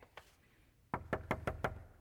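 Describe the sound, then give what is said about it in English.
Strong knocking on a door: one lone knock, a short pause, then a quick run of five firm, evenly spaced raps. “how hard am I going to knock? Am I going to knock real strong?”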